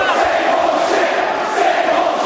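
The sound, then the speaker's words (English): A wrestling arena crowd reacts against John Cena during a match, a steady, loud roar of many voices that holds evenly without pause. “Well, as you can hear, our audience doesn't like what Cena's doing in there.”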